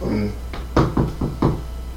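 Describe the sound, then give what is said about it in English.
Knocking on a door: a few firm, evenly spaced knocks in a steady rhythm over a low background hum, after a brief voice at the start. “As you go up to knock on it and say hello”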